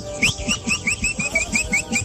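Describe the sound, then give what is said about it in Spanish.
Whistling along to ranchera music in a voice note, a chain of short bright whistled notes repeating in a steady rhythm over a bouncing low accompaniment. “disfrutándose las rancheritas ahí con el silbidito clásico”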